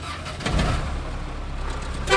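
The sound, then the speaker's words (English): Engine rumble of a baby blue 1951 Cadillac limousine fitted with a diesel motor from an Italian Fiat pickup truck, driving at the Cuban Capitolio; a steady low drone with a brief swell early on. “This is where Jordis Londres begins his trip through the city, charging passengers 40 cents to ride in his 1951 baby blue Cadillac limousine.”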